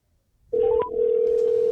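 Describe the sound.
A telephone call is placed on a paired phone: after a moment of quiet, a steady, even-pitched tone starts and holds to the end, with a couple of brief higher beeps near its beginning.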